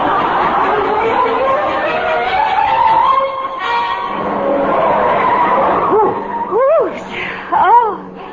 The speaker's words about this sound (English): Driver, not so fast, if you please.